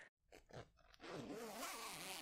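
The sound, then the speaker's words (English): A zipper pulled down on clothing: a few short scraping bursts, then one long, steady rasp that lasts for over a second. “Pull down my zipper.”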